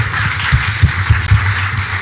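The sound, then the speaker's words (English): An audience applauds to welcome a bishop to the stage, a steady wash of clapping with a few sharper bursts standing out over a low, constant hum. “would you put your hands together and welcome uh, Apostle Father Bishop Ken Gill to be here with us today?”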